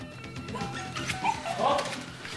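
A dog barks and yips with a whining, whimpering edge, a few short bursts rising over a steady rough background noise, in a radio drama scene where a lost dog has just been found.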